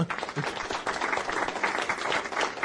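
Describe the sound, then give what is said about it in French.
Light applause from a small audience at a live video game trivia session: a brief, steady patter of hand clapping with no distinct voices. “Tu sais, les petites applauses, mais tranquille. Merci à eux d'être ici.”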